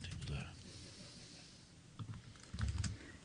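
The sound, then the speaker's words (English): Keyboard typing, heard as a quiet patter of light, uneven clicks that come in a few short clusters, with a denser burst of keystrokes near the end. “So I'm just going to type in here, social distance.”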